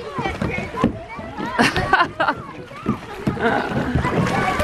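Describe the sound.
Canoe being paddled on water at a leisure base, with splashing and sloshing paddle strokes under lively chatter from several people.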